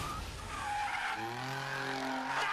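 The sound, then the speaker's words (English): A car drifting in Tokyo street racing skids with a sustained, harsh tire squeal over a roaring engine, whose steady droning tones come through more clearly in the second half. “Of Tokyo, the rules of racing have changed. It's called drifting.”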